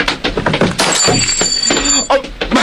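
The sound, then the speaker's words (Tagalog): A glass perfume bottle is dropped and shatters: a loud, sharp breaking crash followed by bright, scattered glassy fragments, with a thin high ringing tone held through much of the sound. “Nasalampay kong butilya sa pahumot.”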